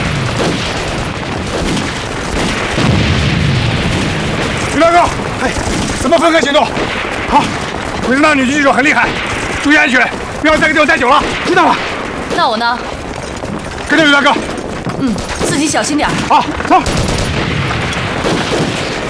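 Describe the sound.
Machine gun fire in a battle, with four machine guns in use: dense, loud, rapid bursts of gunfire run without a break, and voices are heard amid the shooting.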